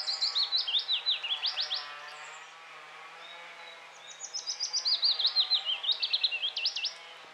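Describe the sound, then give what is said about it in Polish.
Willow warbler song: two sweet, high-pitched phrases of quick notes, each cascading gently downward, the first near the start and the second after a short pause. “A tymczasem piecuszek.”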